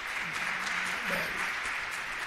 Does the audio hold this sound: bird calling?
no